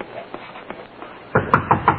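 Police knock on a door. A few soft taps are followed by a louder, quicker series of hard knocks near the end, heard on a thin, muffled old recording.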